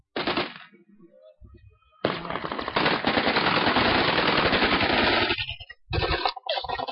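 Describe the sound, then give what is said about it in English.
Rebels firing Kalashnikov rifles in combat: a short burst of automatic fire, a pause, then a long sustained volley of rapid shots, followed by two more brief bursts. “Sun came up, shooting started, and nothing really went to plan. The rebels mainly have Kalashnikovs.”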